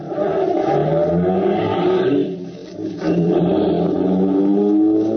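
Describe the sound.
A car engine catching after a hard start and revving: a loud, sustained roaring drone that dips briefly midway, then surges back strongly and holds.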